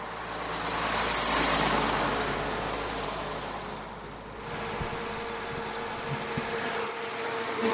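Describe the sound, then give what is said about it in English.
Road traffic on the outskirts of Tamale as vehicles pass on their way into the city: a steady, broad roar of engines and tyres that swells, eases briefly midway, then builds again, with no voices. “I am at the roadside in outskirts of Tamale. Vehicles bypass me to enter the city in the south.”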